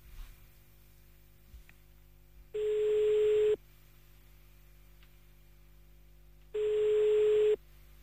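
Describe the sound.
Ringback tone of an outgoing phone call, placed at 7:53 in the morning to a man's phone: two evenly spaced steady electronic tone bursts, each about a second long, separated by a quiet line hiss, with no talking.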